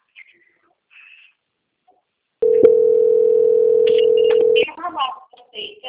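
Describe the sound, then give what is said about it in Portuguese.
A telephone line tone plays while an office call is transferred between extensions. It is a steady, loud, unbroken single-pitch tone lasting about two seconds, preceded by faint scattered sounds and followed by voices talking. “Lá eu vou apertar em cima dos dois telefones. E vou transferir lá no registro.”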